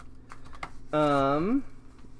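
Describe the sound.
Computer mouse clicks, a few faint, sharp taps, followed by a person speaking briefly.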